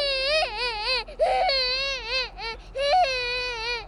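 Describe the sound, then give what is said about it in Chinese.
Cats yowling in heat outside a window, sounding like a crying baby: a few drawn-out, wavering, high-pitched wails that rise and fall, separated by short breaks. “窗户外头传来一阵阵猫子叫春的声音，那声音像是小孩的哭声一样”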